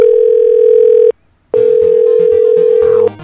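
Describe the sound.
Telephone dial tone after a call is hung up: a loud, steady tone that cuts out for a brief silent gap, then resumes and drops slightly fainter at the very end.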